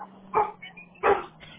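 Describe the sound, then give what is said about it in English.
Dogs barking: loose dogs, the neighbour's and the household's, give two short barks a little apart. The barks sound faint and muffled over a low background murmur. “The dog next door got out, and then my dogs are out, and they're all trying to...”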